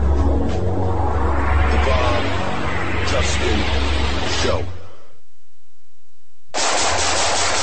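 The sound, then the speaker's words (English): Rapid automatic gunfire pours out in a dense, loud, continuous burst, cuts off abruptly for a brief stretch of silence, then starts up again just as heavily. “Nice shooting.”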